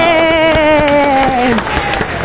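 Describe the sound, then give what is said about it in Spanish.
Applause and crowd noise welcoming a guest. Over it, a sustained voice holds a note and slides downward until it fades after about a second and a half, and scattered claps continue to the end. “Siempre me da gracia los aplausos. Esa es la gente que te espera aquí.”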